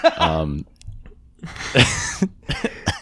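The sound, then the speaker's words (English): Coughing mixed with laughter: a voiced, laugh-like burst opens, followed by several rough, irregular coughs and throat sounds of varying loudness. “I'm not coughing because of that. I'm coughing because I'm laughing.”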